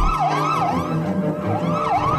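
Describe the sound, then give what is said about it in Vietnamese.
Ambulance siren wailing loudly and alone, a fast rising-and-falling wail that cycles repeatedly without pause through the whole clip. “một hồi còi hú lên thê thảm của xe cấp cứu làm anh bình tĩnh.”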